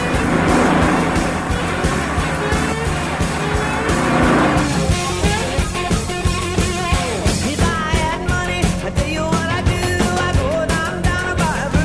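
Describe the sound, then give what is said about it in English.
A car engine roars as the driver accelerates to pull away from a car behind, a sustained loud, dense drone with rhythmic surging throughout. “Why don't you let that car behind you pass us? We're in no hurry. I'm always in a hurry, honey. Always in a hurry. Watch me make this baby walk away from him.”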